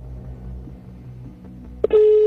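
Telephone ringback tone on an outgoing call: a faint low hum, then a sudden steady single-pitched tone that starts near the end and holds, with no talking.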